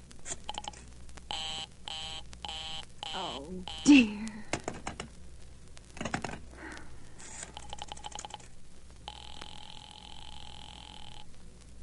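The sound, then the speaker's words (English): A telephone being dialed over and over to a number on a line that stays busy, with runs of rapid clicks and short tonal beeps, then a sustained steady tone near the end. “Operator, I've been dialing Murray Hill 70093 now for the last three quarters of an hour, and the line is always busy.”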